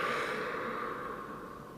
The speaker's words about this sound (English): I take a deep breath in. I lift my arms up, palms together, and then exhale down.